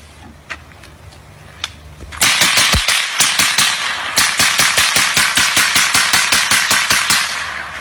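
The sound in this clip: Gunfire with many rounds shot: a few faint, scattered shots give way to a loud, sustained string of rapid-fire bangs with a brief pause partway through.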